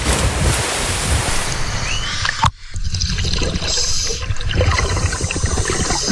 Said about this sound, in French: Très vite, après avoir reçu les consignes, deux plongeurs sautent dans le canal.